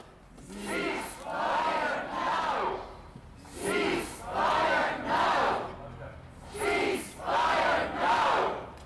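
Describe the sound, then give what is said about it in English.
Dozens of protesters outside the Scottish Parliament chant in unison, demanding a ceasefire in Gaza. The crowd repeats a rhythmic chant in regular phrases separated by short pauses, and it sounds moderately loud. “That is the sound of dozens of protesters standing outside the Scottish Parliament buildings demanding a ceasefire in Gaza”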